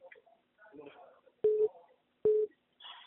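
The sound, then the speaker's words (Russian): Two steady, identical call-waiting beeps sound over a telephone line, each lasting about a quarter second, with a pause between them and phone talk before and after. “Подожди. Еще там кто-то звонит. Ты слышишь?”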